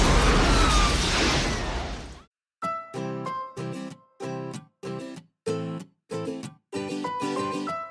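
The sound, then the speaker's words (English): A grenade explosion bursts out as a loud, rough blast that rumbles for about two seconds before cutting off abruptly, followed by a string of short, punchy musical chord stabs separated by brief silences. “Roll the pin out and remove the grenade. You pull out the pin, and I will pull out the grenade.”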